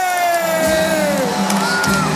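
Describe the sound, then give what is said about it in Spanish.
A crowd cheers and whoops for Spanish world champion footballer Marcos Llorente, wearing number 5, as he comes out, with loud, sustained cheering and bursts of shouting. “El momento en el aplausómetro bastante alto, Marcos Llorente, que sale y se pone sus gafas, cómo no.”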